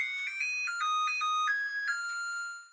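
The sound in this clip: A melodic chime from a kitchen appliance after reheating coffee: a short tune of several bright, clean electronic tones that step between pitches, steady and moderately loud, then fading out at the end.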